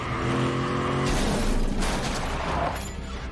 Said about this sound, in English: Terry watches as the truck smashes into the gate, pinning Margot beneath it.